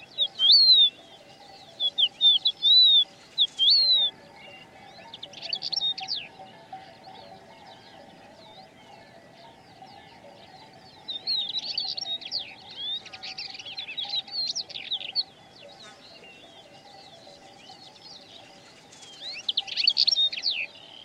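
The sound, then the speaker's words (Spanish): A common quail calls from grass and a crested lark from a stone pile. Short, high chirping phrases come in several separated bursts, with quiet gaps between them, over a faint steady background tone. “Oculta entre la hierba, una codorniz delata su presencia. Lo mismo hace una cogujada desde un majano.”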